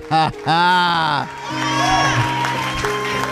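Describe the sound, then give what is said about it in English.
Church audience shouting in faith, loud sustained vocal whoops and cries over a continuous wash of crowd noise, without clearly separate claps. “See, y'all clapping and shouting in faith for what is to be.”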